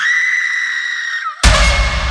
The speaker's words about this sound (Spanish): Un alarido que venía desde el bosque, como si partiera el aire en dos. No era un grito de miedo, era de dolor, de pérdida.